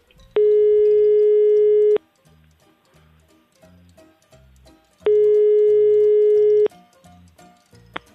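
Line tones from a telephone call being placed: two long, steady ringing tones separated by a pause, over a quiet rhythmic background, with a brief click at the end.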